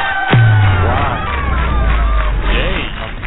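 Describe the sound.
Cheering and hubbub from a live audience gathered on a lawn, a loud, continuous wash of overlapping voices and whoops lasting about three seconds over a low hum.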